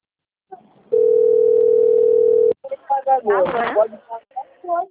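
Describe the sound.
A telephone rings as an outgoing call is placed: one steady, mid-pitched ringing tone sounds alone for under two seconds, then cuts off as voices begin talking.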